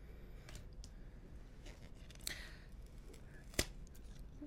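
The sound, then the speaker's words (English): Brand-new tarot cards being pried apart where they stick together, with soft rustling and scraping broken by two sharp, crisp snaps. “Hang on. It's a very new deck. They're all still stuck together.”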